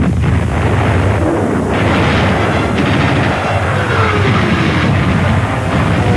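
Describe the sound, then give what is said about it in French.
German artillery batteries open fire at Stalingrad to check a Soviet attack. A loud, dense roar of blasts and rumbling gunfire runs through the whole clip with no break and no single shot standing apart. “les batteries allemandes ouvrent le feu dans le but d'enrayer une violente attaque soviétique.”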